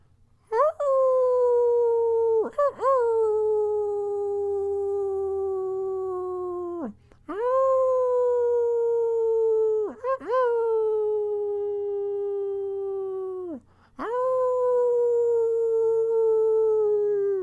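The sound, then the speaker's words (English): Voices imitating wolf howls at a cliffside during a blood wolf moon, a series of long tonal howls, each opening with a quick upward swoop and then sliding slowly downward, loud and smooth over a faint low hum. “So let us howl together, my friends, here at this cliffside in this moment.”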